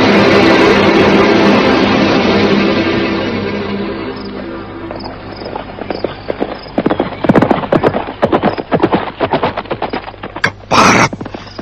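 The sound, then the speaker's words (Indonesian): Horses galloping with hooves clip-clopping in many quick, irregular beats that grow clearer through the second half, after a broad rushing noise that fades over the first few seconds. “Rupanya mereka sudah menyiapkan kuda.”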